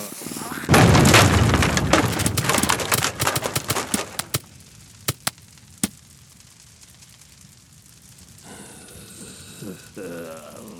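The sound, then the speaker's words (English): A huge explosion blast erupts suddenly and loudly, then breaks into scattered sharp cracks and crackling debris that thin out over several seconds, followed by quieter rumbling and voices. “I don't think so. That blast was too dang big.”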